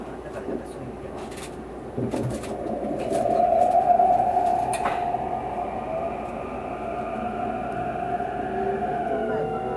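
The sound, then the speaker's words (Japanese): A limited express train bound for Nara departs with a low, steady rumble and hum, a few sharp clanks near the start, and the sound swelling briefly in the middle. “奈良行き特急です。乗車券の方、特急券が必要です。まもなく発車します。扉閉まります。”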